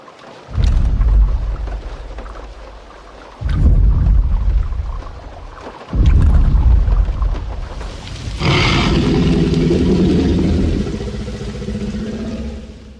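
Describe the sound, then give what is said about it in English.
Deep dinosaur rumbles from Jurassic Park: three heavy, booming low roars, each swelling and fading, then a longer, brighter roar with a rasping edge that holds steady to the end. “Jurassic Park was the first movie where they incorporated that low frequency channel to basically have the rumble of the dinosaurs and make that come through in cinema.”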